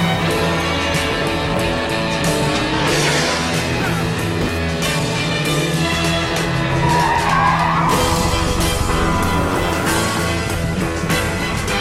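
A car skidding in the video game Grand Theft Auto 5, with tires squealing and an engine roaring, loud and sustained for the whole stretch, layered over steady tonal sound.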